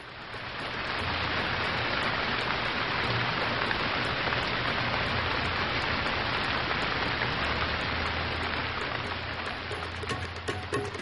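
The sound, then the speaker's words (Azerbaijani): Rain falls in a continuous, even hiss with a soft patter. It swells in over the first second, then holds at a steady level throughout. “Bir yağış başladı, bir yağış başladı, gəl görəsən.”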